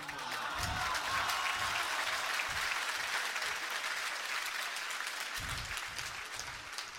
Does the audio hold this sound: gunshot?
no